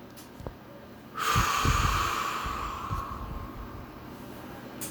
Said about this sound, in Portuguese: Respire novamente. Inspire. Segure o ar por alguns momentos e solte lentamente.